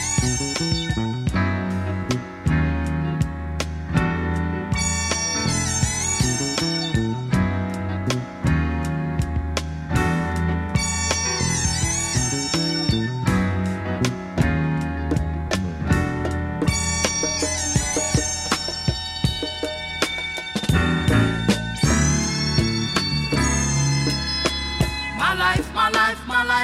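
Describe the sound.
An original studio recording of a song plays throughout at a steady level, with layered sustained tones over a continuous groove and recurring bright swells.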